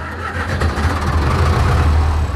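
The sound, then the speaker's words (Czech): Engine of a vintage tractor built in 1962, started at a historic tractor show, settles into a loud, steady low chugging rumble with no talk over it. “To je zvuk klasické 40. Jak starý tenhle ten traktor vlastně je? 62, rok výroby 62.”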